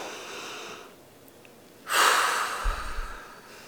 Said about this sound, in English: take a deep breath. Can we all just do that right now? In through your nose, out through your mouth.